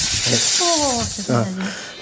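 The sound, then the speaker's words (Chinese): A venomous five-pace viper hisses as it is quickly let go, a steady, breathy hiss running the whole time beneath a man's voice. “我把它放一下吧，它可能放这种毒蛇的时候要迅速放手，不能慢慢的放，因为它的反应速度特别快。要这样放一下。”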